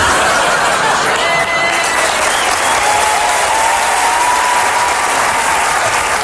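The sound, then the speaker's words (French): A live audience applauds in a standing ovation, with dense, loud clapping that stays steady and unbroken throughout and faint crowd noise mixed in. “si jamais vous aviez l'intention de me faire une standing ovation à la fin, je vais vous demander de me la faire, mais maintenant.”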